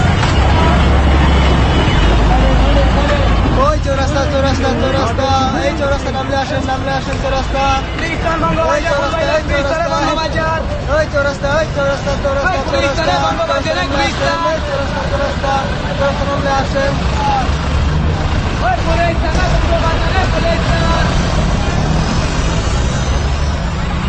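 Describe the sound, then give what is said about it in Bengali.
A bus driving after setting off again, a steady low engine rumble under a constant murmur of passengers' chatter, loud and continuous throughout. “তারপর বাস আবার চলতে শুরু করল।”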